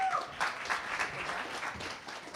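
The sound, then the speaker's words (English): An audience applauds a team being welcomed onto a stage at a tech demo event, with dense, steady clapping that holds at an even level throughout. “Give Dora a round of applause again. One more. Thank you. And next up, we have Team Tactile. Welcome them to the stage, everyone.”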